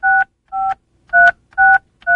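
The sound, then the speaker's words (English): Five touch-tone keypad beeps as someone dials a telephone weather forecast line. Each is a short, loud dual-pitch tone, spaced in an even, steady rhythm with brief silences between them. “Give me a moment to call the official Washington, D.C. snow weather line.”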